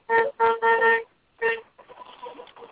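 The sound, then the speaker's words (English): A truck horn honks a few times in quick, steady blasts, one longer than the others. After a short pause comes a final honk, then a rougher, noisier sound. “We hear some honking in the background. Yep, they are. It was a truck honking at us.”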